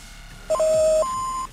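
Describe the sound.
An answering machine sounds an electronic beep tone: a brief blip, then a steady lower tone that steps up to a higher one, lasting about a second in total.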